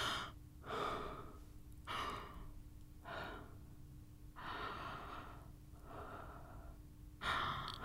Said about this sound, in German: Einatmen, ausatmen. Mein Atem streicht an meinen Stimmlippen vorbei.